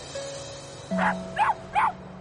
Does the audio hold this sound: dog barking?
yes